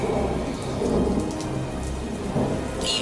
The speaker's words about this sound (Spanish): Invocamos a la eterna tormenta, al rayo, al trueno y al relámpago